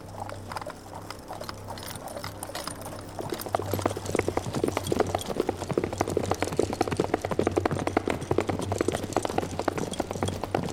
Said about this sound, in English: All day driving in the carriage. The country gets wilder as we go.